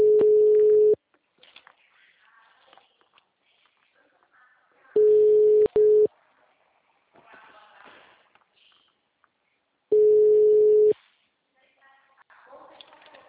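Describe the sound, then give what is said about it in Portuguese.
A telephone ringback tone sounds while a call is placed: three steady, mid-pitched one-second beeps spaced about five seconds apart, with faint background sounds in the gaps. “estou ligando”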